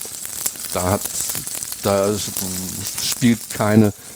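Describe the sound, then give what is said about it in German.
Roast beef sears in a pan and is turned to brown on all sides, giving a continuous crackling sizzle beneath a voice speaking German. “Dann wende ich das, dass es eben von allen Seiten entsprechend angebraten wird. Das ist ganz wichtig, um die Röstaromen zu bekommen.”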